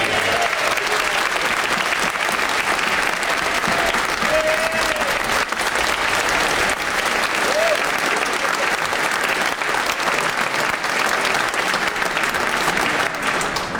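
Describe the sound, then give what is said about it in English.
Sustained applause in the House of Commons chamber, a standing ovation for the Ukrainian ambassador to the UK: a dense, loud, continuous clatter of many hands that holds steady throughout. “where earlier the Ukrainian ambassador to the UK was given a standing ovation.”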